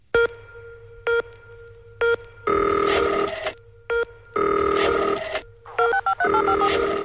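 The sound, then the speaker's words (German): Rotary telephone dial being turned in an electronic music intro. Whirring, rasping strokes alternate with short repeated electronic beeps in a steady recurring pattern. “Ich spiele es nochmal ab. Eine Wählscheibe ist zu hören.”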